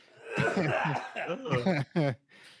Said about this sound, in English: Everybody just muted for a minute while we cough and gasp.